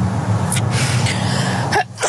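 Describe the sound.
A person sneezes, giving a short burst of breathy noise that ends in a sharp release, over a steady low background hum.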